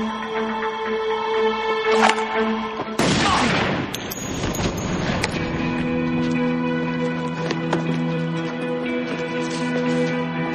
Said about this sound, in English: So, Sarah shoots the guy, and they're free.